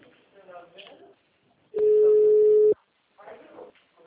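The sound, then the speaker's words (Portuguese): A telephone ringback tone sounds while a call rings through: one steady, mid-pitched tone lasting about a second, set between stretches of talking before and after it. “O meu tá chamando.”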